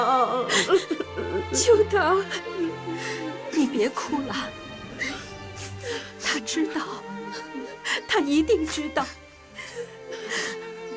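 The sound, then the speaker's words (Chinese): A person crying, whimpering and sobbing through wavering, broken phrases of speech, with catches of breath between them. “你别哭了，他知道，他一定知道”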